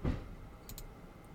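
A computer mouse gives two quick, faint clicks in close succession, sharp and light against a quiet background with a soft low thump at the start.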